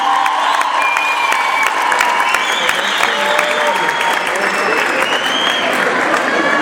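Loud, sustained applause from a concert audience honouring an orchestra's director, dense clapping throughout with cheering mixed in.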